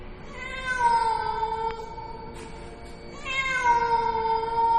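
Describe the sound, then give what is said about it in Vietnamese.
A black cat sitting across a street meows twice, each a long, drawn-out, moderately loud cry with a slight pitch rise, separated by a short pause, with no voices. “Ở sau lưng tôi, bên kia đường, một con mèo đen đang ngồi chễm chệ. Nó nhìn tôi, nó kêu thêm vài tiếng nữa.”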